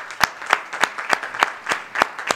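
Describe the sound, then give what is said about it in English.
A church audience claps in unison as a hand clap of praise, with crisp, evenly spaced claps at roughly three per second that form a steady rhythmic run. “Let's just give the Lord a hand clap of praise.”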